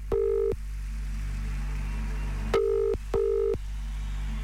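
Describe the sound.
A telephone rings to place a live on-air radio call to a contest winner: three short electronic ring bursts, one alone and then a close pair after a pause, with no talk over them.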